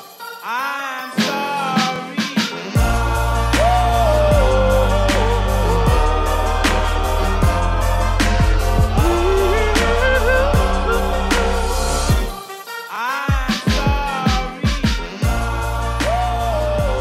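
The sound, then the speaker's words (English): Rap music built on a heavy, steady bass beat with rhythmic vocal lines on top. It plays loud and continuous, thins out briefly around twelve seconds, then the beat drops back in. “It's rap music, and it sounds like this.”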